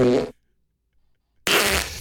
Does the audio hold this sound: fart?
yes